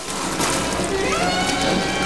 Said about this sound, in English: He knocks Stuart forward, sending him flying into a pond.